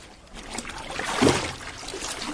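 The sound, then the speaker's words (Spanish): Water sloshing and trickling as an older woman washes, a soft continuous wet splashing that swells briefly to a louder splash midway, then settles back to a low steady sound. “Una mujer mayor está lavando.”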